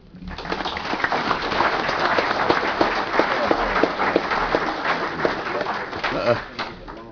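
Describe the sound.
Audience applause welcoming a speaker to the stage at a meeting: dense, steady clapping that runs for several seconds, then thins and fades near the end.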